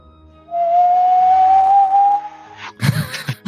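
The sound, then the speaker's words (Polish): A whistling sound effect for an orb in a Numenera tabletop role-playing session: a single pure, sustained whistle glides slowly upward in pitch for nearly two seconds, followed by a few brief noisy bursts. “I zaczyna gwizdać. Tak, gwizdać.”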